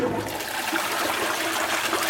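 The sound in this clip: A toilet flushes with a steady rush of water that stays fairly faint and even for about two seconds, with no talking.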